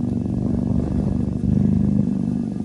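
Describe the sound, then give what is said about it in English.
A cat purrs loudly in a continuous, deep, motor-like rumble that stays steady and even throughout, with no talk. “Big purrs. That's a cat? That's a cat. I know. He sounds like a motor.”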